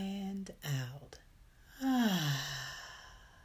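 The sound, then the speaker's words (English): Slow, quiet breathing in and out during a guided breathing exercise. It ends in a long, audible sighing exhale whose pitch falls away. “Breathe in and out.”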